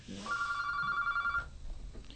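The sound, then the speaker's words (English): An incoming call rings on a telephone as one warbling, high electronic trill lasting about a second, fairly faint over a low background rumble. “And we have a phone call, folks.”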